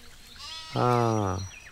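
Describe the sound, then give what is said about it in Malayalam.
A young goat kept at home bleats once, a steady, nasal, sustained call lasting under a second over faint background noise. “വീട്ടില് ആട്ടിൻകുട്ടി”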